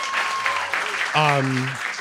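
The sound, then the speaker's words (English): Audience applause at a community event, a brief burst of clapping mixed with talking voices. “First of all, clap for Gertie.”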